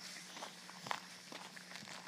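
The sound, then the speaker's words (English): Footsteps walk down a dirt road away from a barn, heading downhill: a few soft, faint, fairly steady steps over a low, constant hum. “I'm walking down this dirt road now, leading away from the barn, coming further downhill”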